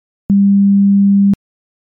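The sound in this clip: An incoming phone call tone sounds as a single low, steady pure beep lasting about one second, clean and alone against silence.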